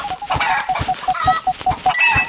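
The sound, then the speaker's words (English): A chicken clucks in a rapid, steady run of many short nasal notes, ending in a sharper, higher-pitched cry. “away, chicken. Go away. You're not pecking me today.”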